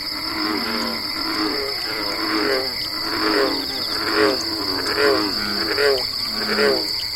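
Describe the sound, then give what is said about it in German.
A bullfrog croaks repeatedly at a dark pond at night, its low, rhythmic calls recurring many times. A constant high, shrill drone of night insects runs steadily beneath the calls throughout. “Wohl musizieren nachtschwärmende Insekten, lässt auch der Bullfrosch sein melancholisches Mu-Mu ertönen.”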